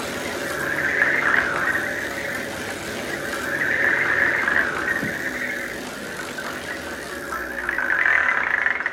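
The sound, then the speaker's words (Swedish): A wheel of fortune spinning for a game, giving a steady whirring rattle with a high squealing edge that swells and eases several times across nine seconds, with no voices over it. “Ja, men vi har inget än förrän du har snurrat på lyckans hjul. Ja. Vad säger vi? Då sätter vi snurr på det då.”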